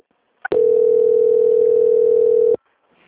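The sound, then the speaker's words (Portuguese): Steady telephone line tone heard while a call is being transferred: one continuous, unbroken tone at a single mid pitch, lasting about two seconds and sounding alone, with a soft click just before it begins. “Ok, estou transferindo aqui. Só aguardar em linha”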